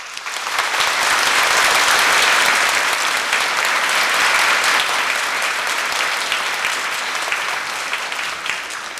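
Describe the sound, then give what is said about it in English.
An audience claps steadily to welcome a speaker, a dense, even burst of applause that holds strong throughout with no voices over it. “Let us give a big hand to welcome the great master Ching Hai Wu Shang Shi.”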